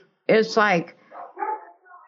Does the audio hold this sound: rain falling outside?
no